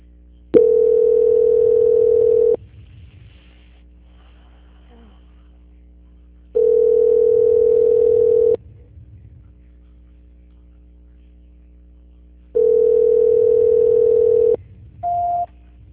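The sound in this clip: Telephone ringback tones play while a call is being transferred: three long, steady, mid-pitched tones of about two seconds each, separated by roughly four-second gaps of near silence, then a short higher beep at the end.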